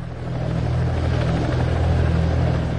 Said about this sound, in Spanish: Luego se aproxima un helicóptero.